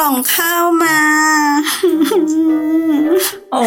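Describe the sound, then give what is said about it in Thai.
A cartoon character cries in a high, wavering whimper voiced by a performer. Several drawn-out sobbing phrases rise and fall in pitch. “ตัวนุ่มไม่เป็นไร ไม่ต้องร้องนะ ตัวนุ่มจะร้องทำไมเล่า”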